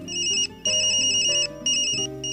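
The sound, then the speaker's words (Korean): A phone ringtone chimes from inside a handbag, playing a bright, repeating electronic melody in three loud bursts separated by short pauses. “그 순간 전화벨이 울리지 않았다면 난 어떤 표정을 지었을까? 전화벨은 소희의 핸드백 속에서 울리고 있었다.”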